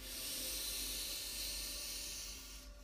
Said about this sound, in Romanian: Ne pregătim să ieșim din meditație și inspirăm adânc aer pe nas.